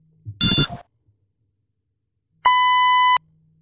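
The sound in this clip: A voicemail beep after a phone call is transferred to voice mail: one loud, steady electronic tone lasting under a second. A short burst of other sound and a stretch of silence come before it.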